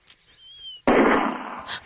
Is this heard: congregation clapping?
no